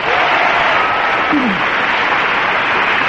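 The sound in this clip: Loud, dense audience applause welcoming four guests onto a comedy panel show, holding steady and unbroken throughout.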